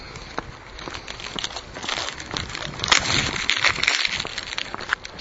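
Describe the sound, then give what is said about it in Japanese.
Crisp crunching from eating a small-fish-and-almond snack made by Iwatsuka Seika, with many small crackly bites and crinkles running steadily throughout, fairly loud and with no talk. “岩塚製菓の小魚アーモンド1枚食べました。”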